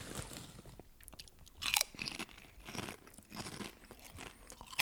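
Crisp crunching and chewing of spicy tomato potato chips: many irregular bites and munches in a quick, uneven rhythm, fairly quiet, with no talking.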